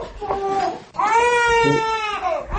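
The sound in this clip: A two-month-old baby cries at home, first a short whimper, then a long, strained, sustained wail with a rich harmonic tone that tails off at the end.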